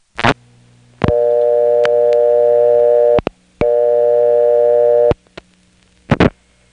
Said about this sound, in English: some of the sounds that are coming from the wire trunks that the Raleigh step uses to get to our destination. This next call is a very good example of that. I'm going to dial 7. That'll put us into the Raleigh step tandem